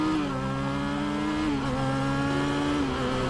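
A motorcycle engine drones as the throttle is worked, a steady buzzing tone rich in harmonics with slight dips in pitch, loud and continuous with no talking.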